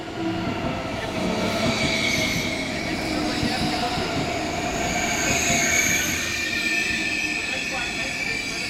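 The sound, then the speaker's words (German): A train running along an ICE express line, with a dense steady rumble of wheels on rails and high sustained squealing tones above it, holding an even loudness throughout. “Und dann wollen wir drei Schwestern zum ersten Mal gemeinsam die Strecke fahren, auf der ICE 884 am 3. Juni 98 verunglückt ist.”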